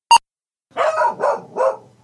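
A dog named Charlie barking: one sharp click, then a pause, then three drawn-out, tonal barks in close succession, fairly loud and with no talk over them.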